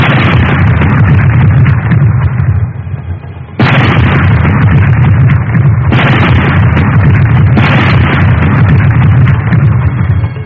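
Gunfire erupts in loud, dense roaring bursts, with a few sharp onsets breaking a continuous heavy rumble and no voices present.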